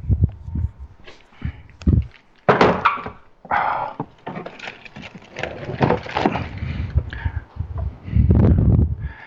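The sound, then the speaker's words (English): Chocolate chips poured from a 6-ounce bag into a mixing bowl, a loud, uneven rattling clatter of many small hits running in bursts for about nine seconds. “I'm just dumping in our 6-ounce bag of chocolate chips, which is 1 cup.”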